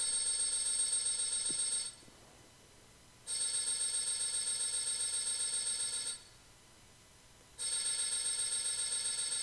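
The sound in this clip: Electronic telephone ringback heard while placing an outgoing call: a bright, steady buzzing ring in three long bursts separated by even pauses, with no voices.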